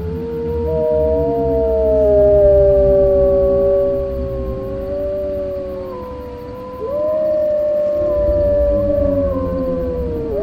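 A werewolf gives a long, mournful howl lasting about ten seconds, loud and wavering in pitch, over a low rumbling bed with no talk.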